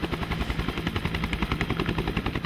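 Helicopter landing on an island, its rotor blades beating in a fast, even, rhythmic chop over a steady engine roar with no voices.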